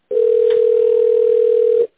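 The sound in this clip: A steady telephone line tone sounds while a call is being transferred to an extension. It is a single loud, unbroken tone of even pitch lasting just under two seconds, with nothing else heard.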